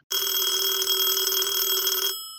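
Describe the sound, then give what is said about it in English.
A telephone rings early in the morning. It is one continuous bright, trilling ring lasting about two seconds, loud and alone, then it cuts off and fades quickly. “the phone rings at 4 a.m., a little bit earlier than Mr. Jordan was accustomed waking up.”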